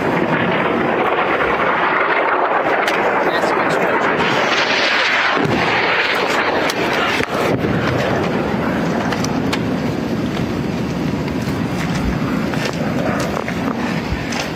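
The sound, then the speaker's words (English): Rocket fire launched from the Gaza Strip toward Israel's Iron Dome defense system: a loud, continuous roar of rushing noise packed with many sharp cracks and bangs throughout. “there's still more rocket fire coming off the Gaza Strip. They're firing from multiple directions and trying to get past Israel's missile defense system, the Iron Dome.”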